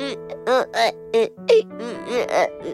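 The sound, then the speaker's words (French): A voice imitates a new toy crying, giving a series of short, whimpering sobs with a wavering, moaning pitch, fairly loud and alone. “En effet, ils entendaient le nouveau jouet pleurer.”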